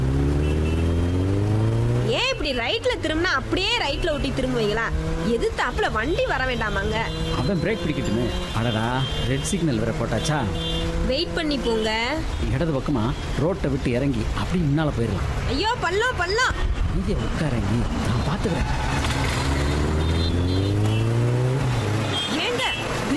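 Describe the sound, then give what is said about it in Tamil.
A vehicle pulls away as its engine revs repeatedly. The rider wears a locked helmet. Engine pitch climbs and falls in a series of loud sweeps over a constant engine drone. “நீ ஏறி உட்காரு, நம்ம வண்டி எப்படி போகுதுன்னு மட்டும் பாரு.”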